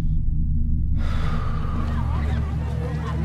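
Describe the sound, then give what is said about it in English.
A deep breath drawn in during a medical check-up: after about a second of quiet over a low hum, a long, steady, breathy rush of air sets in and continues to the end. “Take a deep breath.”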